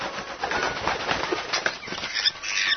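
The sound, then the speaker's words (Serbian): Soft, rapid flapping of a magpie's wings as it lands on a red surface, a dense, fluttering flurry of wingbeats that carries on for a few seconds. “Svraka čeka da zamaknu i sleće na crvenu površinu.”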